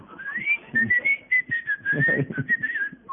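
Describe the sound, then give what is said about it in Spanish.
A man whistles in imitation of a canary, producing a high, warbling run of trills and quick slides that continues for about three seconds. “Es el dueño de la pajarería, que se hace pasar por canario para que las damas le acerquen la oreja. Sí, claro, tiene uno escondido ahí que le chifla.”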